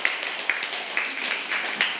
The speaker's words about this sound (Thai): ปรบมือให้กับกลุ่มที่2ด้วยค่ะ